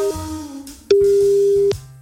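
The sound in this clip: Telephone line tones while calling someone: a brief beep, then a longer, clear, steady tone of nearly a second over a quiet, low background.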